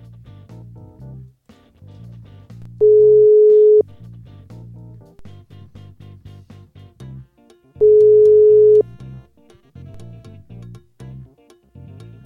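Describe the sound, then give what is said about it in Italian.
An Italian telephone ringback tone plays on an outgoing call: two long, steady, mid-pitched beeps of about a second each, separated by a pause of several seconds, over a quieter background sound. “Vabbè, andiamo a chiamare Angela Donato. Io okay, chiamo, eh?”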